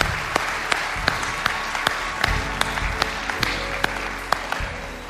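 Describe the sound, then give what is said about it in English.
A church audience claps to welcome new believers during a service, with steady, dense applause and a few sharper individual claps standing out, sustained to the end. “Would you put your hands together? Let's welcome new believers into God's family.”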